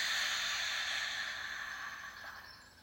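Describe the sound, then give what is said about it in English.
A deep breath drawn in through the nose and then let out, heard as a soft, airy hiss that gradually weakens toward the end. “Let's take a deep breath in through your nose. So inhale. And release it.”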